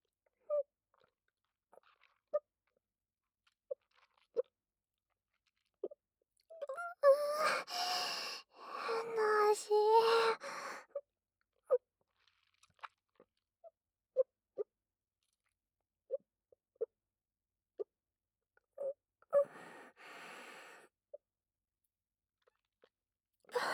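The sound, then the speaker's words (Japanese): Swallowing a drink with close, soft gulps and wet mouth clicks, scattered sparsely, with two denser bursts of throat and mouth sounds in between. “私のごっくんしてる音、聞くたびにお耳がピクピクって。”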